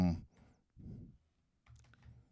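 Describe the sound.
Notes being typed on a computer keyboard, a few short, quiet bursts of clicking separated by brief pauses.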